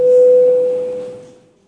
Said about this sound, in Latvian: Paldies, lūdzu zvanu.